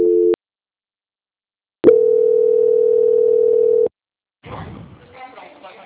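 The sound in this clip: Telephone line tone heard while a call is being placed: a short tone, a pause, then a steady tone lasting about two seconds. A voice begins after the tone stops.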